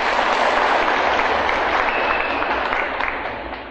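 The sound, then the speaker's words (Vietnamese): Applause as an audience at a Buddhist monk's dharma talk claps to praise themselves, dense and steady hand clapping with no voices, sustained for several seconds before easing off slightly at the end. “Tự vỗ tay khen mình đi.”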